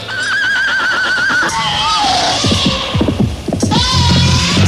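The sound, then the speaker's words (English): A horse neighs loudly, its whinnies shaking in high, wavering pitch at the start and again near the end, with a low throbbing hum and rapid clopping in between. “I need a horse. I ride it like this.”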